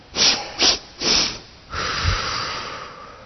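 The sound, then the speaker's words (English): Three quick, sharp sniffs in through the nose come in rapid succession, followed by one long, steady breath out that carries to the end, a breathing exercise done aloud. “Three quick breaths in and a long breath out. You remember that? We had fun with this one. So quick. Right through your nose.”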